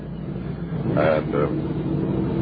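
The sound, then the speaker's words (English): Street traffic outside a hotel in Damascus: a car engine swells and fades under a voice speaking a few words, over a constant low rumble. “all that sound you just heard ahead of me was the street sound by the hotel in Damascus where we stayed a couple of nights.”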